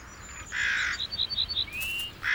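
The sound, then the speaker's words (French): Corvids squabble over a discovered hidden nut with harsh calls, then a quick run of short chirping notes and a high squealing cry, without any voices. “Mais les corvidés ont une excellente vue. Et surtout, ils comprennent ce qu'ils voient. La cachette est découverte. Et voilà tout ce petit monde qui se vole de nouveau dans les plumes.”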